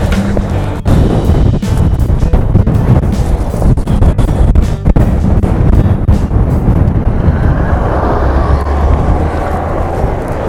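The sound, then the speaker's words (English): Strong, gusty wind outdoors buffets the microphone with a loud, continuous low roar and rumble that never lets up across the whole clip. “The wind is just monstrous again”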